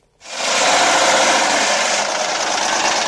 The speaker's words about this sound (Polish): Warkot silnika 500. Nie do podrobienia.